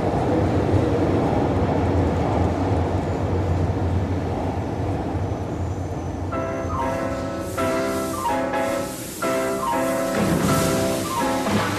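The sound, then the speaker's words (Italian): Low, steady rumble of a New York subway train on the A line, a loud continuous roar throughout, with melodic music rising over it in the second half. “Oggi si parte per un viaggio a bordo dell'A-Train, una delle più antiche linee della metropolitana di New York.”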